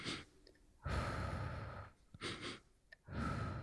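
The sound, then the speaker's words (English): Deliberate breathing exercise of two breaths in through the nose and one slow breath out through the mouth, heard as three breathy rushes of air, the first one long. The breaths are soft and airy, alone with no talk. “two breaths in through the nose, and then one slow breath out through the mouth. Like right now, in fact, as you're listening to this, do that with me. Two breaths in, one slow breath out.”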